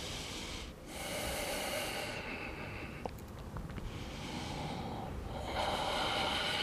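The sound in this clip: Breathing in and out during a guided floor exercise with a ball: loud airy rushes of air alternate with short quieter gaps, several breaths in steady succession, with no talk.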